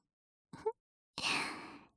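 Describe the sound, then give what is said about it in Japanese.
Soft breath is blown into the ear, first a short quick puff and then a longer, gentle airy exhale that slowly fades out, quiet and alone. “じゃあ今度は反対側の耳をふうふうしちゃいますね。”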